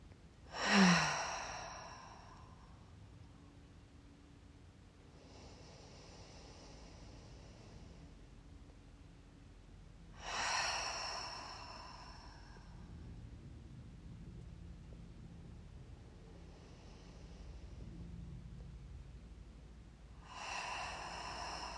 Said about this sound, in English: let's take a few deep breaths. I suggest in through the nose and out through the mouth.